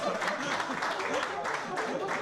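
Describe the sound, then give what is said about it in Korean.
Restaurant guests in southern Portugal applaud to welcome a diner. A burst of scattered clapping is heard, with people talking over it. “제가 처음 먹는다고 하니까 이렇게 박수도 쳐주시네요.”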